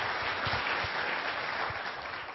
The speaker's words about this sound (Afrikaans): Kom eens maar aan klap. Prys God, halleluja.